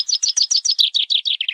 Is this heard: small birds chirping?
yes